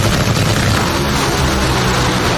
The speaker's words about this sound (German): Also quasi Raketen auf vier Rädern, qualmende Reifen und ein Sound, der euch direkt durch den Brustkorb fährt.